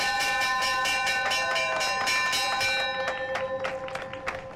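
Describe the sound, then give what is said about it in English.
Rapid clanging of a ship's bell on a tall ship in port, with many bright metallic strikes in a fast, even rhythm and sustained ringing overtones, growing quieter and less regular toward the end. “It's the bell on the Leeuwin when it's in port.”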